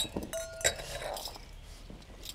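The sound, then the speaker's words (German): Drinking glasses clink lightly as they are dried by hand, two quick bright chimes near the start followed by soft rubbing and faint rustle, all fairly quiet. “Mal die Gläser, die brauchen wir. Lass mal gerade. Ich mach die Gläser noch trocken.”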